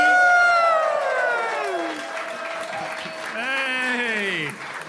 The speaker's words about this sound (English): Please put your hands together. Welcome to the stage.